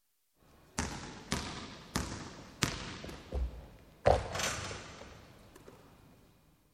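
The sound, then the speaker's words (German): A basketball bounced during play: several dull, hollow thuds at a fairly steady pace, each with a short ringing decay, and the last leaves a longer fade. “Er spielt Basketball.”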